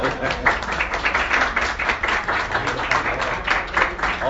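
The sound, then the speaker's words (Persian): Audience clapping: a dense, steady patter of many hands that fills the whole stretch with an even roar and small swells, with no separate claps standing out. “یه کف بزنید برای”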